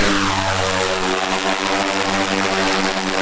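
An aircraft takes off over dense forest in a Heilongjiang nature reserve. A loud, steady engine roar with a droning propeller hum holds constant throughout, with no voices.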